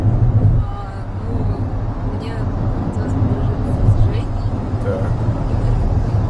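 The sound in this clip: Steady low rumble of a car driving, a continuous engine and road drone with even loudness throughout and faint talk in places.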